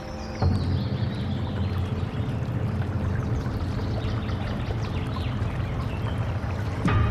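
A stream flowing past a rock gives a continuous rushing, gurgling flow at an even, fairly loud level throughout.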